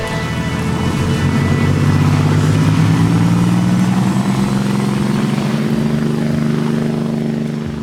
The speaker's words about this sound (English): presses Kim's hand onto the throttle and she gasps as the yacht surges ahead